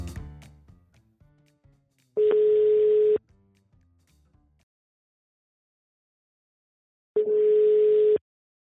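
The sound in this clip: Two one-second bursts of a steady telephone ringing tone sound about five seconds apart as a call is placed. Silence falls between them, and a faint, fading sound comes before the first.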